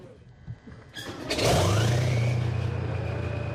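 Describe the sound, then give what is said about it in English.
A nearly 40-year-old T-72 tank's engine roars as it moves out from under trees: quiet at first, then a sudden surge into a loud, deep, steady rumble with a whine climbing in pitch. “The near 40-year-old T-72 tank moves out from under the trees.”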